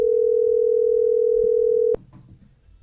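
Telephone dial tone: a loud, steady single-pitched hum held for about two seconds, then cut off abruptly by a sharp click, leaving only faint low background noise.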